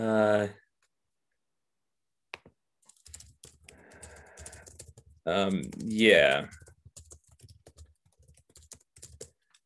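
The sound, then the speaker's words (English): Typing on a computer keyboard: a comment is tapped out in light, steady clicks, with brief stretches of talk over the keystrokes. “I'm typing up a quick comment there. Does anybody have any other thoughts on this while I'm typing?”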